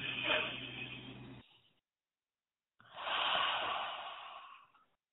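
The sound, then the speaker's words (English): A big exhale during a relaxation breathing exercise: a long, soft breathy rush that swells and fades after a silent pause, following an earlier breath sound. “Breathe into your fingertips. Big exhale.”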